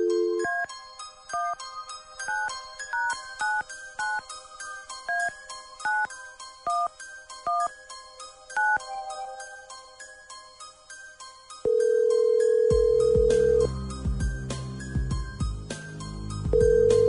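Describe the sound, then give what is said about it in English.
Telephone keypad tones as a number is dialed at random: a long, fast run of short beeps at shifting pitches, followed by a steady ringing tone that stops, pauses and starts again. “Here we go. Dialing at random.”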